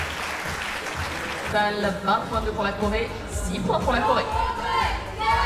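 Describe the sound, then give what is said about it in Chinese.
Spectators at the Châteauroux shooting centre cheer and applaud for Chinese shooters during a shooting match, a sustained crowd wash of clapping and chatter with a voice talking over it. “现场也听到了为中国选手加油的声音，这种声音从沙托鲁射击中心传来，分外亲切。”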